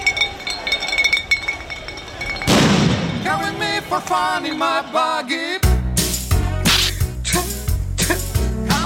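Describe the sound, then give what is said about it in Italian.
Glass bottles clinking and smashing as football fans hurl them and set off paper bombs at reporters and camera crews, with sharp glassy hits giving way to a run of loud, booming bangs over a rowdy crowd. “Da qui l'assalto ai cronisti e cameraman con lanci di bottiglie di vetro e bombe carta.”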